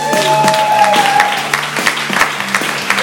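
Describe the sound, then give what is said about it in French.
Studio audience applause on an evening talk show greets a film columnist with loud clapping that pulses unevenly in short swells and stays strong throughout. “Est-ce que vous vous êtes déjà fait applaudir comme ça, Marc”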